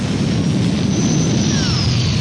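Airplane roaring in flight from London and landing in Madrid: a steady, broad rushing engine noise with a faint high whine that holds level throughout, with no voices.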